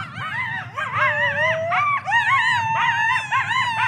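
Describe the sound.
Coyotes howling in chorus: several overlapping, wavering high howls and yips rise and fall together, loud and continuous for about four seconds with only brief dips between phrases.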